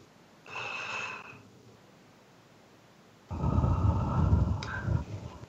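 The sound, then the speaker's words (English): A deep breath is drawn in, heard as two faint, airy rushes of air. The second is longer and louder than the first. “let's do it again. Breathe in.”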